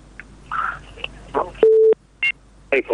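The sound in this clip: Telephone busy tone after a call-in listener's line dropped: a few short, steady electronic beeps, the first held longest, interleaved with brief snatches of talking.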